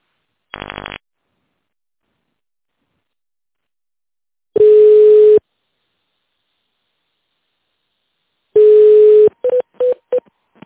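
Telephone keypad tones dial an extension number after a company's automated phone menu: one short tone, then two longer buzzing tones with gaps between, then a quick run of short, clipped beeps, loud and alone.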